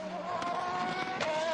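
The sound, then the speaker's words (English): Racing engines of BMW and Peugeot touring cars battling side by side for position, a sustained high engine whine with a couple of brief louder bursts. “BMW and Peugeot coming together side by side. Oh my goodness, battle for position, and that was a fairly robust manoeuvre at the moment”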